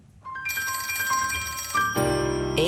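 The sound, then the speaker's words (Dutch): Telephone ringing for an outgoing call: bright, bell-like ringing tones that start softly and build, with a louder burst of chiming near the end. “Even bellen met Ingrid Thijssen, voorzitter van VNO-NCW.”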